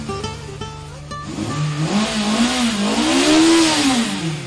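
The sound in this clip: A 1969 car engine fires up and revs, its loud mid-pitched roar swelling and climbing in pitch, dipping and rising again as the throttle is worked.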